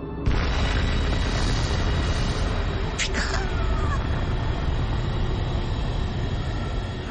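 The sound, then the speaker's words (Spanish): Atomic bomb explosion over a city: a sudden broad blast opens into a loud, deep, sustained rumbling roar, with a brief sharp crack partway through as the roar continues to the end. “el piloto presiona el interruptor y libera el arma más destructiva de la historia. En 45 segundos explotará arrasando toda la ciudad con ella”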